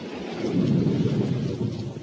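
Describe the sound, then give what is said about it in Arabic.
Thunder during a rainstorm, a continuous low, dense rumble with rain hiss over it, moderately loud and steady throughout with no voices. “أوه، صوت الرعد مخيف، لكنه يأتي بالخير، بالمطر.”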